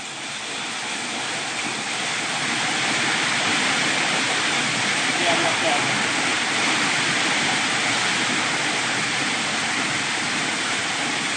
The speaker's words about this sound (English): do you hear the rain?